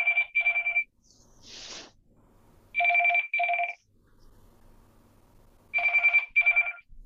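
A telephone ringing in a room during a course session, sounding three loud double rings of bright electronic trills separated by pauses. A brief soft rustle falls between the first and second rings.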